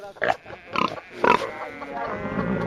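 Farm pigs grunting and squealing, with three loud, harsh voiced bursts in quick succession followed by softer, lower grunting that trails on.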